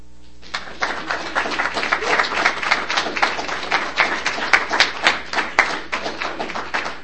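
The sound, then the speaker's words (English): Audience applause at a poetry night breaks out after a moment of quiet and carries on as dense, steady clapping at moderate volume, with a few sharper claps standing out. “So let's give him a hand again and again and again.”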